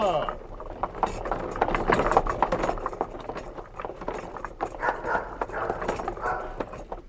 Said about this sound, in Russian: Наконец телега въехала в деревню с брехучими собаками и остановилась около самых высоких и тяжелых ворот.